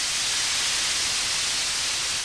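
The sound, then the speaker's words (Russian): Air hisses out of an inflated balloon through an opened valve as one steady, loud, bright rush that holds unchanged throughout, with no voices. “Воздух с шипением рванулся из шара.”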